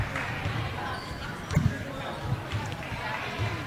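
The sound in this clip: Basketball being dribbled on a court during a game as a player drives into a double team, with a few dull bounces under constant crowd noise.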